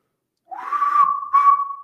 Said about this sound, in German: Ich glaube, ich mache einfach mal ein kleines Pfeifen.